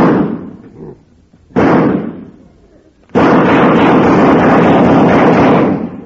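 A comedy gunshot sound effect blasts away a wall, with two heavy booms followed by a third, louder crash that becomes a sustained roaring rumble lasting several seconds.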